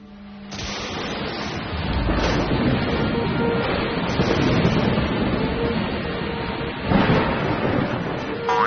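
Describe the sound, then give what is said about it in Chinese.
Roaring typhoon storm with wind and rain in an animated disaster-safety cartoon: a loud, steady wash of noise that builds early and surges again briefly near the end. “自然灾害全民防灾系列动画之台风来了。”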